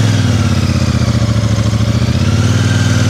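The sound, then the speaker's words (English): Royal Enfield Meteor 650 motorcycle ridden slowly at near walking pace, its engine a loud, steady low thrum with a rapid, even pulse and no clear revving. “Yeah, it's really quite easy to ride slowly, this bike.”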